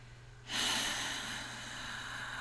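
A deep, slow exhale during a guided breathing exercise: a sudden, airy rush of breath that starts strongly, then eases into a steady, softer stream of air until the end, with no talking.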